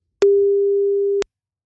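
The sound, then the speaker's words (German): A telephone line tone sounds while a listener is being called: a single steady, loud tone holds for about a second and stops abruptly, with no voices. “Den müssen wir jetzt mal anrufen”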